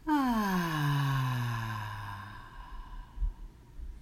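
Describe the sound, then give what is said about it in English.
A deep breath out during a guided breathing exercise, heard as a long voiced sigh that falls steadily in pitch and then fades into quieter breath noise. “And one more deep breath in. Breathe in and out.”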